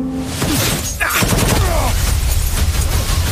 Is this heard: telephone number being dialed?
no